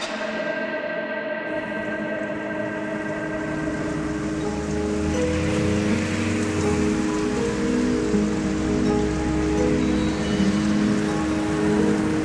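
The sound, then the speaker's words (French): Light rain falls on a morning in Oslo, Norway, as a steady, even hiss that runs unbroken through the whole clip, with a low rumble underneath that grows somewhat louder after the first few seconds. “Ce matin, une pluie fine s'abat sur la capitale norvégienne.”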